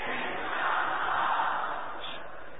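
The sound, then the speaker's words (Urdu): A crowd chants a religious slogan at an Islamic religious gathering. Many voices blend into a broad, sustained roar that swells slightly, then eases off toward the end. “وہ نعرہ ایسا لگائیں کہ مدینہ مدینہ ہو جائے”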